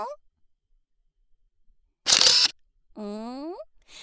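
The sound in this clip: A camera shutter fires once as a photo is taken, a short crisp mechanical burst in near silence, followed by a voice.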